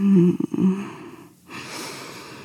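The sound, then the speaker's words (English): A ragged breath is drawn in, a soft, noisy, breathy inhale that swells after a brief low voiced sound and a short pause. It stays fairly quiet. “You draw in a ragged breath”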